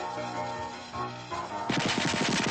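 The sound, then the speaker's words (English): Popcorn kernels pop on a stovetop in a sudden burst of many sharp, rapid pops that fire in quick succession near the end, following a steadier tonal stretch. “More kernels explode until they cover him completely.”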